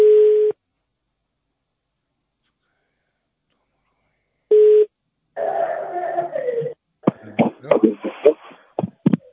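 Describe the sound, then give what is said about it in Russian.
Telephone ringing tone on a call: two short, steady tone bursts separated by a long silence, followed by a person speaking. “Алло, это Петросвязи, звоночек звонится.”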